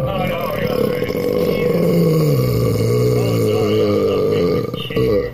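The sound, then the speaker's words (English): A man lets out a long, low, rumbling burp. It stays loud and voiced for about five seconds, and its pitch sinks through the middle before it ends. “that's the burp of a man.”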